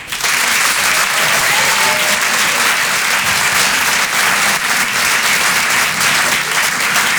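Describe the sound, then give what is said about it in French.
A comedy club audience applauds a comedian with dense, loud, continuous clapping that stays even and unbroken from start to finish. “Je vous demande de l'encourager, de faire un maximum de bruit, s'il vous plaît, pour Paco.”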